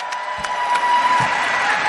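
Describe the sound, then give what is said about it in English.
Audience applause and cheering at a live band performance: a steady, dense wash of clapping and crowd noise fills the whole two seconds at an even, fairly loud level. “a big round of applause for our music director. If it wasn't for this guy, this band wouldn't be happening. Big round of applause, please, for Nick McGeehee.”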